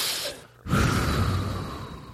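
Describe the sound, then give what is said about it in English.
A deep breath: a short rush of air, a brief pause, then a longer, steady, breathy stream of air that lasts to the end. “Everyone take a deep breath. Take a deep breath.”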